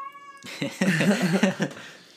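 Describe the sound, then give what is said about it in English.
A domestic cat meows in a drawn-out, warbling call, fairly loud and close, after a brief steady tone at the start. “Yes, that is my cat Gouda.”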